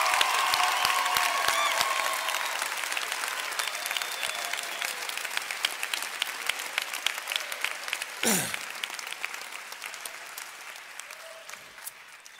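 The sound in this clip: Sustained applause from a chapel audience congratulating a doctor, dense and loud at first with some voices mixed in early, then gradually thinning and fading toward the end.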